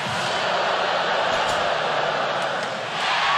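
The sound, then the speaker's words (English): Crowd noise fills a hockey arena as Anaheim and Calgary fans react to a jumbotron display. A loud, steady wash of many voices continues throughout, easing slightly just before the end and then swelling again. “The noise you're hearing is they're showing up on the Jumbotron, Anaheim fans and Calgary fans, and fans are booing or cheering.”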